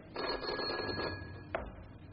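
A telephone rings faintly in a single buzzy burst that lasts just over a second, then stops with a brief click.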